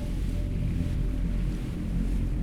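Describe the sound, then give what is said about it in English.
Strong wind out at sea on a small rented boat off Long Island, between New York and New Jersey: a steady, loud, low roar and buffeting rumble, continuous throughout with no talk. “Oh my god, it's windy. It's really windy.”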